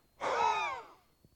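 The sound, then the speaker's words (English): A speaker imitates Jesus breathing on the disciples with a single voiced breath out: a soft, drawn-out 'haah' lasting under a second that trails off into quiet. “Jesus, in that room, in that hour, at that time, breathed on those disciples. Can you imagine it being something like this?”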